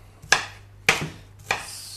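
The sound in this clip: Knife chopping onion on a board while stuffed zucchini is made Turkish style: a few sharp, crisp strikes spaced about half a second apart, each with a short trailing rasp, standing alone without talk.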